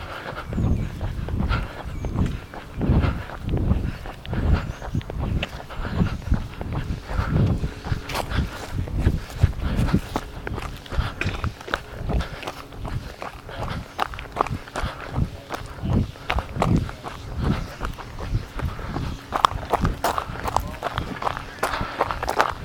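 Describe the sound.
Running footsteps of a person on a morning run, a steady, rhythmic patter of many footfalls that keeps an even pace throughout, fairly quiet.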